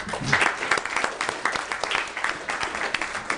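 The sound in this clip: Applause welcomes a visitor to a Senate session: a steady patter of many clapping hands, alone and sustained throughout.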